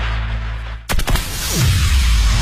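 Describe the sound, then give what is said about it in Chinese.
Firecrackers exploding for Spring Festival in Beijing: after an abrupt cut, a rapid cluster of sharp, loud cracks bursts out, then settles into a rough, noisy rumble that carries on to the end. “依法依规放鞭炮，平平安安过春节。”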